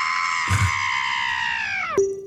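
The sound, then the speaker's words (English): A single scream, sustained and strongly harmonic, holds a steady high pitch for about two seconds. It then drops sharply in pitch and cuts off. A brief low thump comes just after it begins. “We've got one scream I think has made the cut.”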